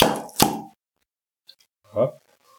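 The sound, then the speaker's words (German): A swing-top beer bottle is opened with one sharp, loud pop after a rustling noise. Near silence follows, broken by a faint click and a short vocal sound. “wir machen das Bier mal auf, damit wir der Sache Herr werden.”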